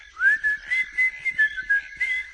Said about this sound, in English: Just whistle that little tune